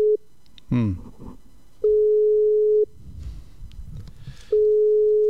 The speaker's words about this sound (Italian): No, da occupato. Sono da occupato, facciamo una veloce chiamata.